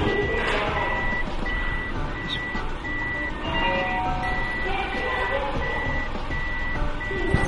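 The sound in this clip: Reversing beeps sound while a car is parked in an underground car park: a steady series of evenly spaced, high-pitched electronic beeps over a continuous low rumble.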